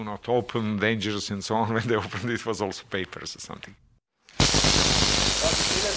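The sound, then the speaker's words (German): A high-voltage spark gap fires. After a stretch of talk and a moment of silence, it bursts into a loud, harsh, continuous crackling hiss. “Und das ist also diese Funkenstrecke, die durchzündet.”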